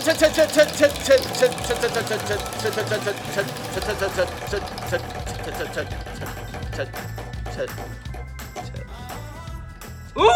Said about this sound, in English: We're going to spin the wheel and see what food we are delivering today.